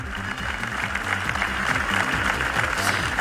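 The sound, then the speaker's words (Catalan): A crowd applauds outside Tarragona City Hall after a minute of silence held in mourning for three drowned minors. Many hands clap in a steady, even patter over a low, droning background. “És el so dels aplaudiments que han seguit el minut de silenci que s'ha fet aquest matí a les portes de l'Ajuntament de Tarragona en senyal de dol per la mort de tres menors ofegats a la platja de la Rabassada.”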